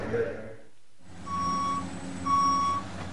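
Reversing beeps from construction equipment: two steady, high-pitched electronic tones sound over a low engine rumble, with a pause between them.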